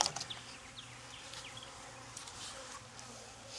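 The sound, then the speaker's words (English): Honeybees buzz in a strong hive that has just been opened in an apiary, a fairly quiet, steady low droning hum with a few faint clicks along the way. “Yeah, they're a little bit buzzy already. This hive is getting strong.”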